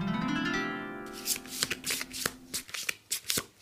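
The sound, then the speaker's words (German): Cards being handled as the next card of a deck is turned over: a faint tonal hum fades out over the first second, then a rapid run of many crisp, papery snaps and rustles follows. “Ich würde die nächste Karte umdrehen.”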